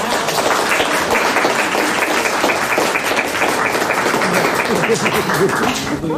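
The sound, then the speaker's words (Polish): Applause from the audience at the opening of an art exhibition in a gallery and workshop. The clapping is dense and steady, holding at an even level for the whole clip without a break. “Brawa.”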